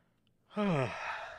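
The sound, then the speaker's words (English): A single voiced yawn that opens on a falling tone and trails into a long, breathy exhale, fairly loud and heard alone. “God, I'm fucking yawning just by the mere say of the name.”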